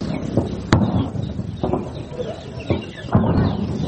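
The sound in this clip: Birds calling among the greenery in Kandahar, faint chirps over a noisy outdoor background with a few sharp clicks.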